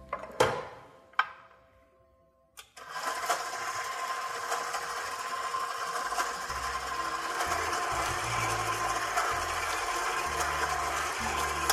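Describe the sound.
Stand mixer running on its lowest stir speed to bring dough together in the bowl: two sharp clicks and a short pause, then a steady, moderately loud motor whir with a faint churning texture that continues to the end.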